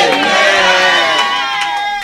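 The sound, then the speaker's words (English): A church audience cheers and applauds with a loud, dense, steady roar of voices and clapping that holds for the whole two seconds. “A round of applause unto Jesus.”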